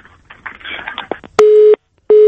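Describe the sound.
A telephone line tone follows a dropped connection: two loud, steady, mid-pitched beeps come after a brief stretch of faint, garbled noise, and the second beep is cut off at the end.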